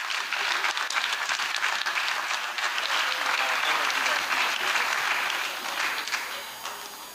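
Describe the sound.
Theatre audience applause welcoming a novelist onto the stage at Liberty Theatre on a Friday night, a steady wash of clapping that holds for several seconds, then fades toward the end.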